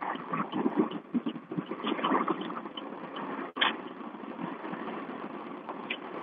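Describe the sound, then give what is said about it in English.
Car engine while driving, a steady, muffled rumble with continuous road noise and no clear speech. “Are you like outside or something now? I'm driving now.”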